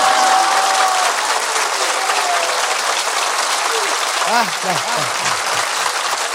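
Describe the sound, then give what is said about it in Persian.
Crowd clapping hands on the night celebrating Imam Ali's birth, a dense, steady wash of applause that stays loud and unbroken throughout. “پس همه کف زدن، دست ها سرخ شده یا که حنا بندان است.”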